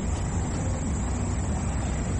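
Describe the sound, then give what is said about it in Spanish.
Engine rumble from a team bus arriving at a football stadium, a dense, unbroken roar that holds at a constant loudness throughout. “Me siente el ruido del motor del colectivo.”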